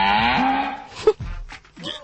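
A cow moos once, a low, harmonic lowing call lasting about a second, followed by a few faint knocks and rustles.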